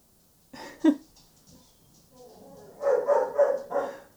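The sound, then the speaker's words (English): A young puppy barking in the background: one sharp bark, then a run of higher yipping, whining barks with a few quieter sounds between. “if you can hear in the background, that is our new puppy.”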